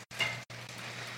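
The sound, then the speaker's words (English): Browned meat, vegetables and chicken sizzle in a pan, giving a faint, steady crackling hiss over a low hum. “my meat's browned, my vegetables are cooking, my chicken is looking finger smacking”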